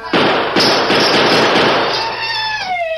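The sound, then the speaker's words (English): A gunshot shatters a cluster of bottles on a large table in a room: two sharp bangs open a dense, bright crash of breaking glass that rings with high tones and fades over about three seconds. “The Lone Ranger unholstered one of his silver-mounted guns and aimed at a cluster of bottles on a large table in the center of the room.”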